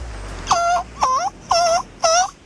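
Gull calls: four harsh, nasal cries repeated at an even pace, each about a third of a second long, with a short gap between them and no other sound.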